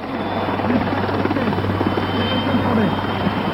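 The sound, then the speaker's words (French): Puma military helicopters approaching from far off: a steady, continuous rotor drone with a low rumbling thrum, holding an even level throughout, with no voices. “Il ne le sait pas encore, mais au loin, des hélicoptères Puma approche.”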